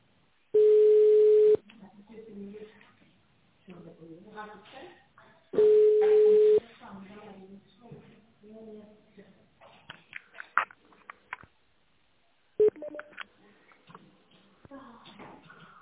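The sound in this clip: Telephone line tone as a call tries to connect: two loud, steady, mid-pitched beeps, each about a second long and several seconds apart, with people talking between and after them.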